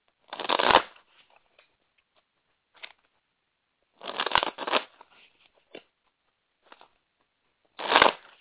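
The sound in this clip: Power-animal oracle cards are shuffled in three main riffling bursts, with a few light taps and card clicks in the quiet gaps between.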